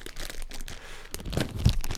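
A cookies and cream protein bar, melted from a jacket pocket, is unwrapped. The plastic wrapper crinkles and tears in several rustling crackles, and the crunches get louder near the end.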